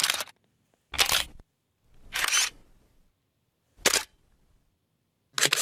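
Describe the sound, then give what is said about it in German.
An analog film camera being opened, closed and wound makes a series of five short, crisp mechanical clatters separated by silent gaps, each a brief burst of latch, door and winding-lever noise, with no voices. “Tja, da geht was auf, da geht was zu, da bewegt sich was und am Ende ist ein Film, den man dann zum Entwickeln bringt und dann kommen dann Fotos raus. Diese analoge Fotografie, die erlebt gerade ein Comeback,”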